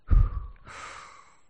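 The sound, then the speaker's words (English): A single breath in and out: a quick, loud intake followed by a longer, softer airy exhale that fades away. “Let's breathe in. And out.”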